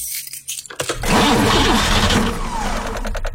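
A car engine with a dead battery cranks through a few uneven, strained turns, then a loud, sustained mechanical drone carries on to the end.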